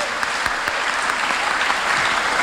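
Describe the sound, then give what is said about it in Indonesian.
Audience applause at a graduation ceremony: steady, dense clapping from many hands that holds at an even, fairly loud level throughout. “Mari kita beri aplaus buat mereka.”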